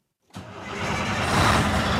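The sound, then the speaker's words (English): A white Volvo truck's engine starts after silence outside a school shop room, catching abruptly and settling into a loud, steady low rumble that swells slightly. “Just outside the shop room at Williamsport High School, some 17-year-olds have piled into the cab of a white Volvo truck.”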